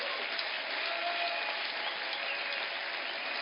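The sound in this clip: An audience at a church convention applauds in a continuous, dense rush of clapping, steady and even throughout, with a muffled, dull tone lacking any high sparkle.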